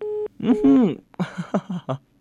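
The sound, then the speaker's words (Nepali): A short, steady telephone tone sounds as a phone-in call line drops, cut off after a moment by a person speaking. “सम्पर्क विच्छेद भइरहेको छ, केही छैन, अलिक ट्राई गर्नुहोस् न, फेरि पनि आउनुहुनेछ आशा गर्दछु है।”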